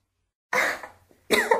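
A woman coughs after choking on water: two short, harsh bursts of coughing separated by a brief silence, loud and alone.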